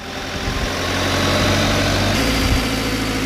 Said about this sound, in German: Auf etwa 11 Meter fährt Georg Fiedler im Hubwagen zum Storchennest hinauf.